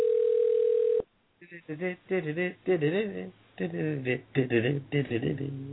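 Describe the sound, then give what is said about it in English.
A telephone dial tone plays as a steady, even hum for about a second, then cuts off abruptly, and people start talking. “And I still don't get why we dial him.”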